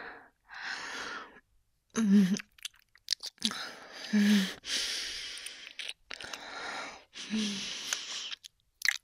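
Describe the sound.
A voice performs a vampire biting and drinking blood with wet mouth sounds, gasps and heavy breathing. The sounds come in several breathy bursts with a few low, throaty gulping noises between pauses.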